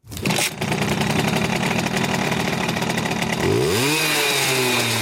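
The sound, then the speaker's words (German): A Simson moped engine runs steadily with a buzzing, raspy drone, then revs up, its pitch rising sharply near the end; no voices. “So hört sich das Kult-Moped an.”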